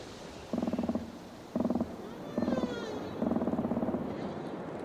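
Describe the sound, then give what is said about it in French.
Marine wildlife calls from a gull, a sea lion and a humpback whale in an ocean soundscape: four throaty, rapidly pulsed bursts over steady background hiss, with fainter, higher sweeping tones in between. “Un goéland, un lion de mer, une baleine à bosse.”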